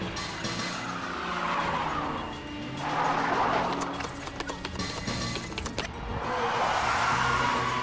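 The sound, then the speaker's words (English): Tires on a ute screech as it burns rubber, driven wildly: loud squealing rises and falls in about three long swells over a low, rough engine rumble. “In the ute, Croy, seemingly demented, is still burning rubber, trying to shake off the ants that are climbing up his jeans.”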